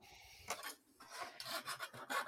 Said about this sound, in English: So I'm just filing off the rough shards from the